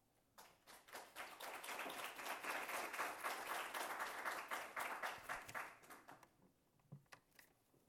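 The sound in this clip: Audience applause welcomes a speaker at a literary reading. Dense, steady clapping swells quickly, holds for about five seconds, then thins out to a few scattered claps.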